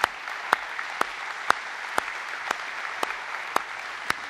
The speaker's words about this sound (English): In fact, Summit Church, if we could, let's put our hands together one more time and thank God for them.